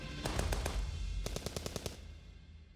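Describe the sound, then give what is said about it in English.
Gunshots fired at fleeing enemies come in two rapid bursts of sharp cracks with a brief pause between them, fairly faint over a low rumbling background. “took a few more shots at the fleeing bloodbacks”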